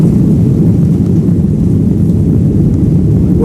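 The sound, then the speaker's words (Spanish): A steady, loud low drone of an Iberia airliner on a flight to Tokyo, an even, unbroken rumble heavy in the low end with no voices. “hoy nos hemos subido de nuevo a un avión de Iberia, vamos camino de Tokio”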